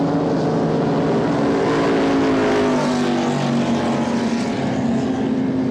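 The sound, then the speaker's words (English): Roaring engines of A-Class racing powerboats speeding off into Galveston Bay at the start of a heat. A loud, steady, dense drone fills the whole clip with no talk. “They're off now, as you can see. Heading into Galveston Bay, Hog's Breath, Arch Marine, Slippery One Wet, Frank's Marine. Off to a great start here in this first of two heats in A-Class.”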